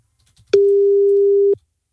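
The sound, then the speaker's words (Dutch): A telephone ringback tone sounds while a call is being placed: a single clean, steady mid-pitched beep lasting about one second, alone in near silence. “Ik ga hem even live bellen.”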